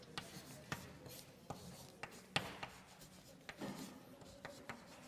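Faint scratching of someone writing on a board during a maths lecture. A series of short, sharp strokes and taps comes at an irregular pace, with quiet rubbing between them.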